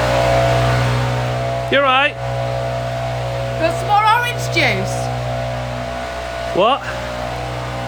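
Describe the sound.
A leaf blower runs outside during breakfast, its engine a steady, droning hum that holds constant throughout while people talk briefly over it.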